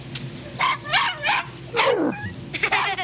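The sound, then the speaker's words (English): A dog barking in short, high yipping bursts, several spaced barks with one sliding downward into a whine, followed by a quick cluster of yips at the end. “Dogs bark at people.”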